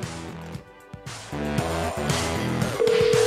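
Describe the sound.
A cell phone rings with an electronic tune of short, steady, clear tones in a repeating pattern that grows a little louder near the end.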